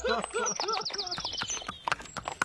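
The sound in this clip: Hoofbeats of horses clip-clopping as riders ride on along a country road, a quick run of many sharp, uneven clops that stay fairly loud throughout.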